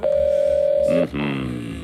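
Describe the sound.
A telephone ringback tone sounds while a call waits to be answered: one steady mid-pitched tone lasting about a second. A voice follows right after it.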